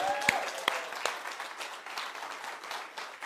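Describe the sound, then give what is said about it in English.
An audience applauding a newcomer who has stood up, a steady patter of fairly faint clapping with a few sharper claps near the start. “Is there anybody new here? Yeah. Oh, she stood up. Everybody, give her a hand.”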